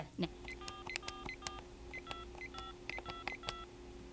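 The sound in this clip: A telephone being dialed: a quick run of many crisp touch-tone beeps in an uneven rhythm, with a faint low hum underneath.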